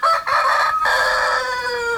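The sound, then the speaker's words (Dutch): A rooster crows once in a loud, sustained, tonal call lasting about two seconds, with a brief dip partway through and no other sounds. “En dat was de haan van Jan-Dirk Nijkerk, voorzitter van de Kleindierliefhebbers Nederland.”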